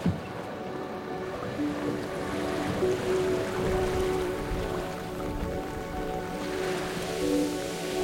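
Water sloshes and washes around a boat at sea, a broad churning wash with a steady tonal hum running beneath it. Nothing stands out from the continuous, moderately loud texture, and no voices are heard.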